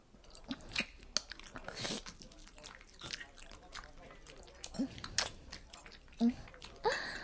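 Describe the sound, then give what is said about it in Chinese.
Someone bites and chews a candied hawthorn skewer, making faint crunches and wet, squishy chewing. The sounds come as many irregular bursts with short gaps between them. “现在我还在吃饭呢。”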